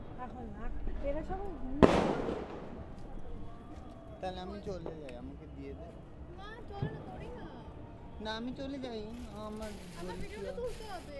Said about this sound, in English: Sorry, I was trying to get the firework.